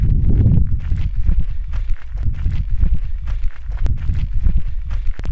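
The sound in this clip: Footsteps crunch on the ground while someone walks the Camino, a steady run of many gritty, rough steps that keeps a regular walking rhythm, with no talk.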